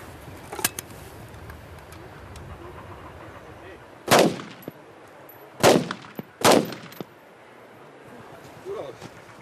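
Handgun shots fired at a military shooting exercise ring out as sharp, sudden cracks. Three loud reports stand out well apart, with a couple of fainter pops around them over low background noise.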